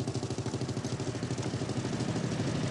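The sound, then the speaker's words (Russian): Quiet, steady engine drone from a motorcycle with a sidecar, a low throbbing hum with a regular pulsing rhythm and faint clatter, holding an even level throughout. “Навстречу проезжает еще один мотоцикл с коляской.”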